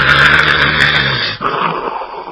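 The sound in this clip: A voice imitates the snoring of cart drivers asleep on a shared bunk: a rough, growling, drawn-out snore that breaks off briefly before a softer, breathier continuation.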